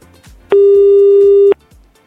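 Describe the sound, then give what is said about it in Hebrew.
A telephone tone sounds while a call is being dialed: one loud, steady tone lasting about a second, with faint, repeated falling swoops before and after it. “בואו נחייג לתשובה לחידה שלנו, מה אתם אומרים?”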